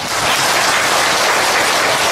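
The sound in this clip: An audience at a Buddhist dharma talk claps in agreement, producing a dense, even wash of applause that holds steady from start to finish.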